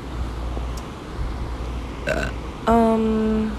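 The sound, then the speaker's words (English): A person's burp: one loud, low, voiced belch that holds steady for about a second over a quiet background hum. “I just burped.”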